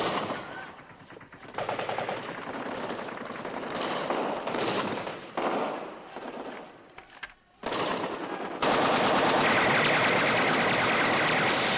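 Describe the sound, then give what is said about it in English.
Machine gun fire aimed at a window inside an office, as fighting reaches the headquarters building of an air force base. Loud, sustained rapid bursts form a dense, continuous clatter, broken by one short lull before a steady, heavier stretch of firing. “In Ripper's office, the remaining pictures fall. Ripper shoots his machine gun toward the window.”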